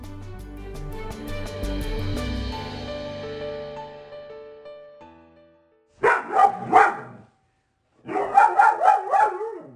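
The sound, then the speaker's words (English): A young lab and hound mix dog gives playful barks, two quick bursts of several sharp, loud yips separated by a short silence, preceded by a fading tonal sound. “That's our dog, Susie. She's almost 2 years old, and that's her play bark.”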